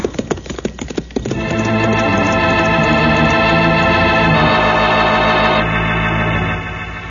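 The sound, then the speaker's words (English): Horses galloping: a quick, rapid run of hoofbeats lasts about a second. A loud, sustained tonal swell with layered harmonics then takes over and runs to the end. “I'm going to ride to that house as fast as possible.”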